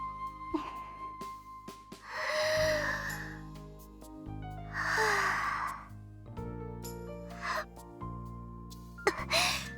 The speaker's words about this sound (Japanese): その前に一回深呼吸してもいいですか。